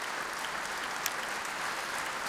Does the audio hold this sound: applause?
yes